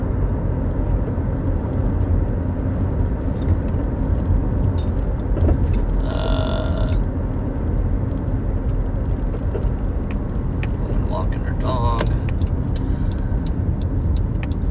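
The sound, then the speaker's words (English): A car drives along a road, giving a steady, unbroken hum of engine and tyre noise that stays even throughout. A few brief, faint tonal blips and clicks sit on top. “We're still driving.”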